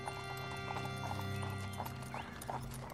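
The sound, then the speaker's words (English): A ridden horse clip-clops: many even hoofbeats at a steady walking rhythm over a constant low droning background. “your horse is riding right behind Blodgett”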